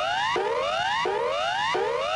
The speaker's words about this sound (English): The standard emergency warning signal has been adopted nationally to precede a warning of an emergency situation such as a fire, flood or earthquake aftershock. The alert sounds like this.